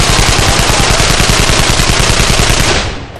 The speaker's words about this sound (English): Firing from the hip, Ryan stitched bullets through their heads and shoulders, sweeping them aside.